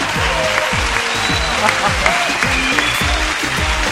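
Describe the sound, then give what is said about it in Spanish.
A crowd gives an ovation of loud, dense applause that continues steadily throughout, with a rhythmic low beat pulsing underneath. “a Brian Pérez, vamos a hacerle una ovación, ahí muy bien, sí, aplauso.”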